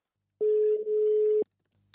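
A telephone call rings out while a reporter phones football clubs: one steady, mid-pitched ringback tone lasting about a second, followed by near silence.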